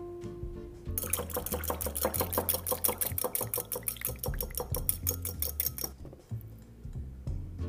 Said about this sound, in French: Maintenant, nous allons battre l'œuf avec le beurre et le rajouter au reste de la préparation.